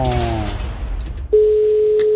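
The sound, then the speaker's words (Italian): A telephone rings during a radio call-in game: a single steady mid-pitched tone cuts in about a second after fading music and holds unbroken to the end. “Occhio. Primo squillo, aiuto.”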